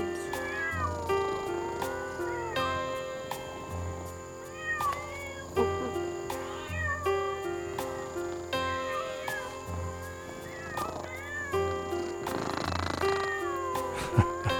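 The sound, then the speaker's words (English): A cat in Asheville meowing repeatedly, with many drawn-out, pitch-gliding cries at an uneven rhythm over a steady tonal background. “That was a cat in Asheville. That was the purring in Asheville.”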